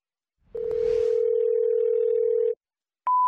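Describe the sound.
Telephone tones for a call-in hotline: a long, steady hum-like tone holds for about two seconds, then stops, and after a short silence a higher, steady tone begins.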